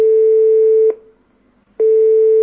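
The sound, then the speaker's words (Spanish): Telephone line tone while a call connects: two long, steady mid-pitched beeps, loud and clean, separated by a brief silence, with the second tone running to the end and no voices. “Vamos a intentarlo. Conectamos con la primera llamada.”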